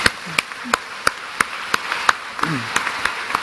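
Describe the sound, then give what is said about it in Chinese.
Hand clapping from a church audience after two students sang with piano accompaniment. The claps are sharp, distinct and evenly spaced, keeping a steady rhythm from start to end at a fairly faint level. “我咧就唔系几中意教会唔准人拍手嘅，不如我哋拍手多谢下佢哋好唔好”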